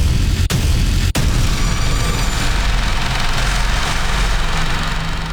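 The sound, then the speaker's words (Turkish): Panter howitzer firing during a live-fire military exercise: a loud, steady low rumble and roar runs throughout, broken early by two sharp, brief cracks. “Bu sese kulak verin. Burası Ankara, Polatlı ve tatbikatın adı Atış Serbest ve karşınızda Panter Obüsü.”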